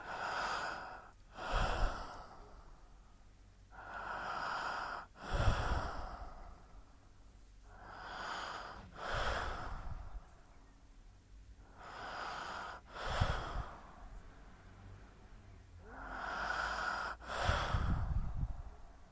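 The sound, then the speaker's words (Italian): Slow, rhythmic breathing during a breathing exercise: soft, airy inhales and exhales repeat in several unhurried cycles, faint and steady with no talking. “Inspiro ed espiro, disegnando un cerchio. Inspiro ed espiro, disegnando un altro cerchio, e così via.”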